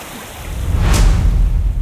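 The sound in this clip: A splash as a person jumps into a cold mountain stream, about four degrees, on a hot day: one short bright burst near the middle over steady rushing water noise, with no voices.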